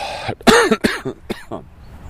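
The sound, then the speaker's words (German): A few sharp, dry coughs and throat-clearing bursts come in quick succession, fairly loud and alone with no talk. “Hust.”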